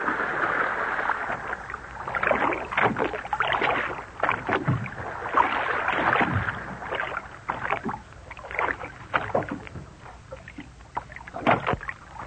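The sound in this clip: A small wooden fishermen's rowing boat is pushed off from the shore into the water and paddled away. Irregular bursts of sloshing and splashing rise and fall with the strokes over a soft watery background, with no talk.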